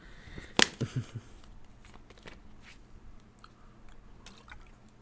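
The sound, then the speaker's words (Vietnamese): A person takes a sip of water: a sharp click and then three soft gulps. Faint scattered small noises follow in near quiet. “À quên, đợi chút mình uống hớp nước đã.”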